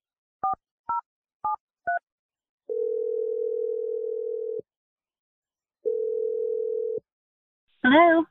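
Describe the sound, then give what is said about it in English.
Telephone dialing: four short touch-tone beeps in quick succession, followed by two long, steady, low-pitched ringback tones separated by a pause. “We're going to dial her number right now.”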